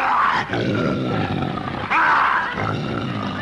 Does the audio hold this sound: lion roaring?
yes